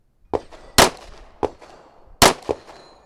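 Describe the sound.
Pistol shots crack out during a practice round before a pistol competition: five sharp reports at uneven intervals, two much louder than the others, each fading quickly into near quiet.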